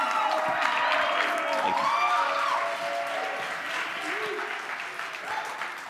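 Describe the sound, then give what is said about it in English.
Church audience applauding their youth pastor: thick, continuous clapping mixed with a few whoops and shouted voices, easing slightly in level toward the end. “Can you give it up for our youth pastor, Pastor Hunter Costello? Come on.”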